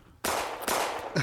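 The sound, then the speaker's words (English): A gunshot sound effect fired from a soundboard: two loud, noisy blasts, each followed by a long roaring tail, and then a shorter burst at the very end. “Shots fired. Whoa. No. That soundboard again.”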